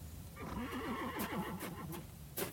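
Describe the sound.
Horses whinnying as they shy beside an overturned carriage, heard as one long, quavering, high neigh that wavers up and down for over a second, faint throughout.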